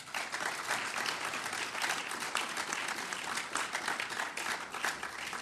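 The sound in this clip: Audience applause after an answer at a question session following a speech: dense, steady clapping that fills the whole stretch without a break, even in loudness throughout.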